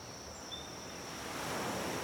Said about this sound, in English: Watch the waves flow like your breath, in and out.